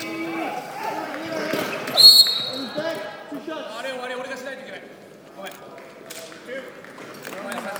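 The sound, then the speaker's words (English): Basketball bouncing as Australia dribbles the ball up the court in a game against Japan, quick bounces beneath a steady wash of background voices. “Australians bringing the ball down 4 and number 7.”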